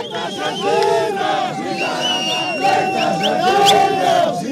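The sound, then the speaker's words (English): Protesters shout in a dense, loud crowd on the streets of Harare, Zimbabwe, during deadly violent protests with burning tires and police gunfire. Many voices yell and cry out together in a continuous roar with no pauses. “That's the sound of protesters in Harare, where several people were killed when police fired live ammunition at protesters who threw rocks, burned tires, and blocked streets.”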